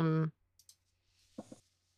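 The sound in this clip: Percentile dice rolled for a tabletop role-playing game: a few faint clicks and a brief rattling clatter, following a short bit of speech.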